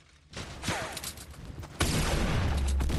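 Gunfire in a video game: rapid volleys of crackling shots burst in, then a denser, louder barrage of continuous firing takes over partway through and keeps going to the end.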